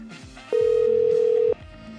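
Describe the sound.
A telephone ring tone sounds during a prize giveaway phone-in call, one steady, mid-pitched tone lasting about a second, rising clearly above a busy background before cutting off.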